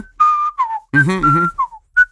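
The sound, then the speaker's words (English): A person whistles a tune in a few short, clear melodic phrases, with some notes sliding downward at the ends. “So I'm whistling this theme.”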